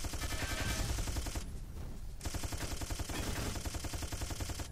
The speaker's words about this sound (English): I care more about just shooting everything.